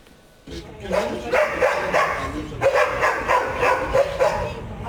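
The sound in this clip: Many dogs bark at a dog farm in the middle of a residential neighbourhood, a dense, continuous chorus of overlapping barks and yips that holds at a steady, fairly loud level throughout.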